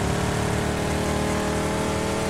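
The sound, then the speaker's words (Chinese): A sports coupe's engine drones in a battle royale video game. The sound is loud and steady, a constant buzzing hum with no clear rise in pitch, and no voices can be heard over it. “我觉得这个车的噪音好大，我听不到人说话了。这是跑车吗？所谓的轿跑。”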